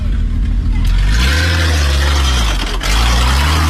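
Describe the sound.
A car revving hard while turning sharp circles on sand: a loud, continuous engine roar with a low rumble, its pitch rising and falling as the throttle swells and eases.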